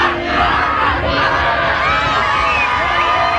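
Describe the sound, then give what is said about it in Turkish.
Turkish football fans, more than 3,000 of them, chanting and cheering for their national team at a training session in Arizona: a dense, continuous mass of shouting voices chanting together, loud and steady throughout. “Arizona'da 3000'den fazla taraftar tezahüratlarla destek oldu.”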